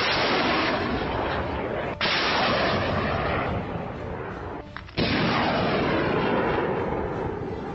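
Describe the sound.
A Katyusha rocket salvo fired at enemy positions makes a loud, sustained rushing roar. Sharp new blasts restart the roar twice as further rockets launch.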